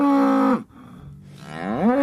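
A farm cow moos twice. The first is a long, low, harmonic call that drops off and breaks, and the second moo rises in pitch toward the end. Both are loud and heard alone.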